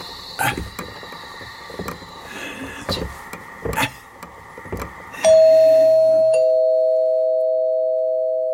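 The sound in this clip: A doorbell rings once in a drama scene, a bright sustained tone that holds and slowly fades, preceded by a few short dull thuds.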